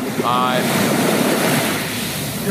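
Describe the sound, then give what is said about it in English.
Ocean waves: a continuous rushing wash of surf mixed with wind noise, loud and even throughout without clear breaks between individual waves. “Taking on the 4 seed Ocean Waves, which I'll play. We can talk over the Ocean Waves.”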